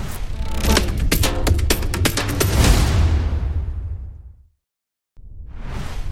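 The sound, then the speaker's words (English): A show intro jingle with whoosh effects: loud, dense bursts and sweeping swooshes with punchy hits, fading out into a brief silence before the sound swells back in at the end. “But right now, I always forget one thing. Let's roll the intro.”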